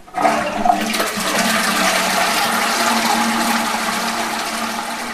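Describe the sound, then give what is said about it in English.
A toilet flushes with a loud, steady rush of water that starts with a short clunk and keeps roaring evenly for about five seconds, fading only slightly toward the end. “That was the sound of a toilet flushing.”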